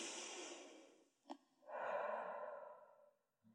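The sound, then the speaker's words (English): Deep breath taken alone: a long, airy inhale, a brief sharp catch, then a fuller, breathy exhale that swells and fades away. “So deep breath.”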